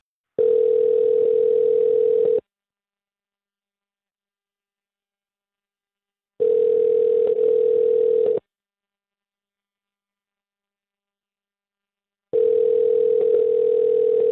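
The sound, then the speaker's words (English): Telephone ringing tone while a call is placed, with three steady, low buzzing tones of about two seconds each, separated by roughly four seconds of silence, and no voices. “let's call Heather right now and see if she'll talk to us, okay? All right. Thanks, guys. All right. Here we go.”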